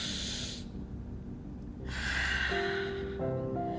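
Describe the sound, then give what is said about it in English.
Deep breath taken at the start of a session: two long, breathy hisses, a short one followed after a pause by a longer, louder one, with faint steady tones appearing near the end. “let's begin. Deep breath.”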